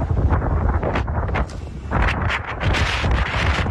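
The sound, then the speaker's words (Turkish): Strong wind from a cold wave over Istanbul roars loudly and continuously, buffeting the microphone in rushing gusts that ease briefly and then surge back, with no voices. “Ardından kuvvetli rüzgar etkisini gösterdi.”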